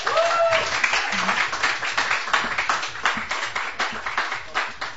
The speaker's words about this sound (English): I'd like to... ask you to put your hands together and give a warm welcome to Kelty Malone.